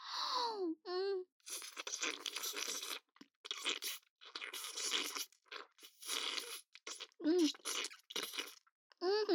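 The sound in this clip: Someone eats a crunchy snack, producing many loud, crisp crunching bursts in an uneven rhythm, with pauses between bites. Short murmured vocal sounds occur at the start and near the end.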